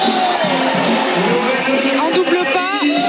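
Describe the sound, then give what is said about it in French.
A stadium crowd on its feet shouts and roars, demanding an unsportsmanlike foul in a women's match, a loud continuous din with some whoops, while a commentator talks throughout. “Le public est debout là. Carrément, il réclame une faute anti-sportive.”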